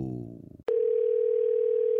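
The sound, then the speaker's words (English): A steady telephone dial tone sounds as a call is placed. It starts abruptly after a short lead-in and holds one even, unbroken pitch on its own. “Now, let's get Gia on the phone and let's see what she has to offer you. And here we go.”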